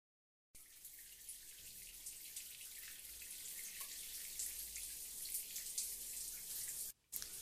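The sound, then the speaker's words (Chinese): Shower water runs as a steady, quiet hiss of spray, continuous and unbroken until a brief dropout just before the end. “我在洗澡，等会出去再说。”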